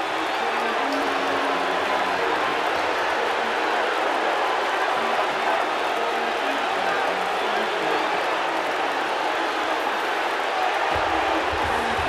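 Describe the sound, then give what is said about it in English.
A crowd in a wrestling video game boos the match winner, a continuous, even roar of massed voices that fills the whole stretch without letting up. “Here is your winner. And the fans are booing the shit out of him.”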